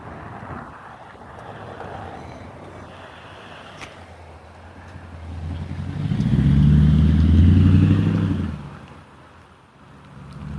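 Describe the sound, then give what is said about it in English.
A car approaching: a low engine and road rumble builds from the midpoint, peaks loudly, then fades away over a steady background hiss. “Okay, car coming.”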